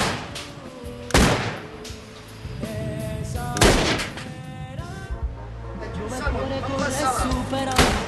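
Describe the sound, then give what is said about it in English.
Gunshots ring out in a film scene as a gunman shoots tattooed men in a tanning salon: a few sharp, loud cracks spaced seconds apart over a continuous tonal background. “Suddenly, one of them pulls out a gun and wipes out the rest of them.”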